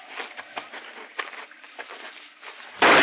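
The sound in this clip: A single loud, sharp gunshot blast goes off in a hunting radio drama, breaking in abruptly at the end after a stretch of quiet talk.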